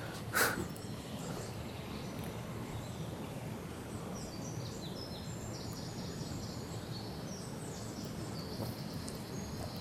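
Faint, high bird chirps scattered over a steady wash of outdoor background noise, with a single sharp knock near the start.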